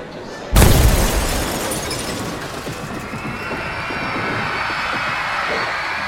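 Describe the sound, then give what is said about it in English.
A suitcase bomb explodes in the air-conditioned waiting room of Bologna train station, full of people: one sudden, loud blast, followed by a sustained roaring, hissing wash of noise that holds steady to the end. “Explosives hidden in an unattended suitcase detonate in an air-conditioned waiting room at the Bologna train station, which at the time was full of people.”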